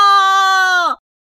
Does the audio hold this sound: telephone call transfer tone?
no